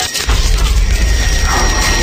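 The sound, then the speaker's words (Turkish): A time machine sound effect: a loud, sustained low rumble with a steady high whine above it and a grinding mechanical texture, running unbroken after a brief dip at the start. “Zaman makinesi.”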